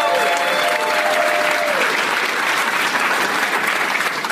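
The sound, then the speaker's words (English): Audience applause for a game show contestant: dense, steady clapping that stays loud and even from start to finish. “Let's hear it for Luke, everybody.”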